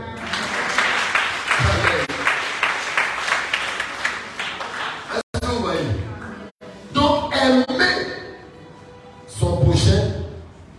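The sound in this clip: A church audience applauds the Lord in rhythmic, even-paced clapping that carries for several seconds before breaking off into a man's speech, with a brief renewed burst of crowd noise near the end.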